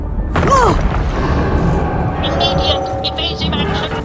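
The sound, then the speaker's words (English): Sci-fi drama effect of shots striking a spaceship: a sharp booming impact near the start, then a sustained rumbling roar with higher, shimmering tones, and a brief voice over it. “They're shooting at us. What is that? Not a missile.”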